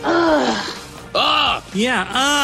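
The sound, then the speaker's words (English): A voice imitates a groan of disappointment, the sound a sports broadcaster makes when a play goes against the Browns. It is a few drawn-out voiced groans with wavering, bending pitch, loud and alone. “I guess it's a groan of disappointment.”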